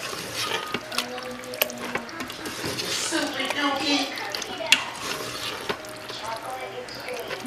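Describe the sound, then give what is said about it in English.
Food with barbecue sauce being stirred in a cooking pot: soft scraping and sloshing with a light sizzle, punctuated by a few sharp clinks of the utensil against the pot, while a person talks. “Okay, we're gonna stir this up. It's looking good, it's smelling good.”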